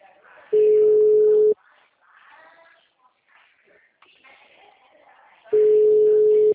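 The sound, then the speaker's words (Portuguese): Telephone ringback tone while a call connects: two steady mid-pitched tone bursts of about a second each, several seconds apart, with soft talk in the gap between them. “Tá chamando, vamos ver.”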